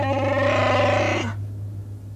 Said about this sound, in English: And as he growled angrily, the huddled Ugnaughts shivered and grunted like a pack of frightened pigs.